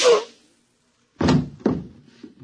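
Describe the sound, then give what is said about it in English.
A single sharp gunshot, fired as a final shot at someone, bursts loudly and fades quickly. After a pause, two heavy, dull thuds follow. “And just one more shot for good measure to make sure you're really dead.”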